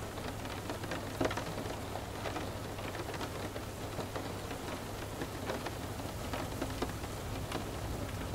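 Rain falling on a window, with drops running down the panes: a faint, steady patter with scattered small drop ticks and no voices.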